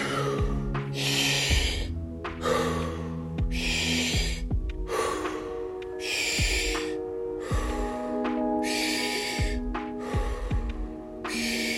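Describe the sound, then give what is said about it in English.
Deep breathing during a breathwork session: a steady series of long, airy inhales and exhales, each rushing breath clearly audible over sustained low background tones. “We're just going deeper into the inhales, deeper into the exhales.”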